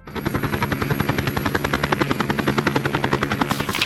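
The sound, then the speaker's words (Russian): Helicopter in flight, a rapid, steady thudding rotor chop over a constant engine whine, each beat evenly spaced and loud throughout. “Вертолет летит. Вух-вух.”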